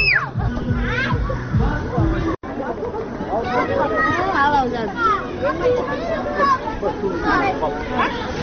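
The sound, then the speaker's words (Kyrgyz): Many children and parents chatter and shout at a village recreation park on Children's Day, where a trampoline draws a long queue. Overlapping young voices form a steady, busy babble throughout, with a brief dip partway through. “Балдарды коргоо күнүндө Актоо айылындагы эс алуу паркта балдар ата энелер көп. Алардын далайы Дүйшөн Акчалов атындагы орто мектептин окуучулары иштетип жаткан батутка узун кезекте турушат.”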